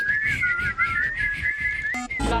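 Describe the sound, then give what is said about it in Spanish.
A person whistling a wavering tune: a bright, clear tone sliding up and down continuously, loud and alone above a low background rumble, ending with a brief, different burst of sound. “Silbando, ¿no? Silbando, silbando.”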